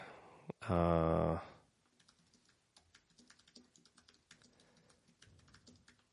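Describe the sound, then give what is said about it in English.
Rapid typing on a computer keyboard: many light, irregular key clicks patter steadily after a loud tonal burst at the start. “This is me trying to type really fast, knowing full well that I can't spell.”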